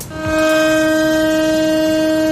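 A steady siren tone sounds across Israel for a minute of silence on the October 7 commemoration of the victims of the attacks three years earlier. It is loud and unwavering, with a sustained harmonic hum and no voices.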